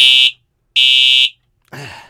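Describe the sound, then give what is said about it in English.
A fire alarm sounds in two loud, shrill electronic blasts, a short one and then a longer one, separated by a gap of silence. “Is that a fire alarm? Yes, fire”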